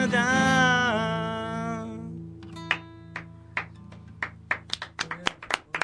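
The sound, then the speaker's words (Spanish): A scattered handful of late audience hand claps, irregular and sparse, following a held tonal sound that fades out. “Ahí llegaron los aplausos tarde.”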